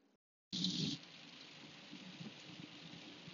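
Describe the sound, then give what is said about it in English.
Rain hitting a surface begins abruptly after a moment of near silence, louder at first, then settling into a soft, even patter and hiss. “You hear that? Do you hear that? That's the sound of rain.”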